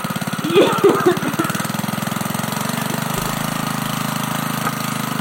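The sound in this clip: A random topic generator sound effect: a steady chugging, engine-like mechanical rattle over a low hum, with a few brief higher warbling tones near the start.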